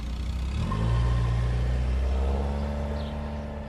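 A Toyota Prado car driving off, its engine giving a low, steady rumble with a brief rising rev early on before settling into an even drone; no one speaks.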